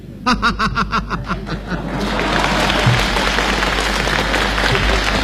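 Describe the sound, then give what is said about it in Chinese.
An audience at a crosstalk comedy show laughs in short rhythmic bursts, then breaks into loud, sustained applause that fills the rest of the moment as a dense wash of clapping. “大家都着急了，只给您鼓掌。”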